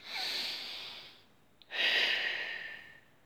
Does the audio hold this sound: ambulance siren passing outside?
no